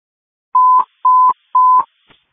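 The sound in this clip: Three evenly spaced telephone keypad tones dialing 411, each short, loud and steady, separated by brief silences and followed by a faint click.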